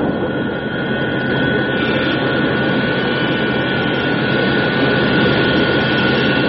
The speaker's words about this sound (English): When the tail is pointing towards the landing platform, the retrojets will open. The jets are about to fire.